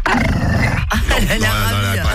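An agitated dog growls steadily, a loud, continuous rumbling vocalization whose pitch shifts and wavers throughout.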